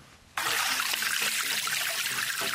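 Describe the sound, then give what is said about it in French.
Spring water trickles from a developed spring that serves as a water supply point in Cameroon. After a brief quiet moment it starts abruptly as a loud, steady, unbroken flow. “L'eau qui coule de source ici est le seul point d'approvisionnement pour ces petits-enfants”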